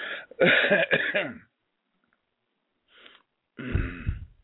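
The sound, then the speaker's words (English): Throat clearing in a few harsh, rasping bursts: a long, loud rough one, then after a silent pause a faint short rasp, then another strong, low, gravelly clear. “Trying to get my throat cleared here.”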